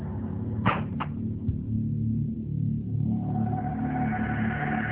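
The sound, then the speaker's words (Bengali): A padlock bangs against a door in a few sharp, clattering knocks close together near the start. A steady low rumble runs underneath and continues after the knocks stop. “ঠিক এমন সময় ওটা দরজার সঙ্গে তালার বাড়ি খাওয়া শুরু করে”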